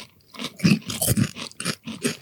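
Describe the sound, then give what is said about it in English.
Crunching on a spicy ranch Bugles corn snack: several crisp bites and chews in an uneven rhythm, close and fairly distinct. “I've bitten the end off and I'm now eating a bugle. A spicy ranch bugle.”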